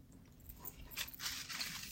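Crunchy food being chewed during a tasting of spicy, acidic snacks: quiet, close, repeated crisp crunching and bites with wet squishing, growing a little louder toward the end, with no talking.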